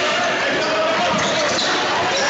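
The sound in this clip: A basketball is dribbled on the court during a high school game, its bounces buried in a steady, loud crowd din.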